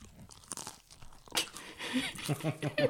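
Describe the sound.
Crunchy chewing of beef meatloaf made with onions, pickles, mustard, Worcestershire, eggs and breadcrumbs. The wet, crackling bites and crunches come irregularly and grow louder and denser in the second half.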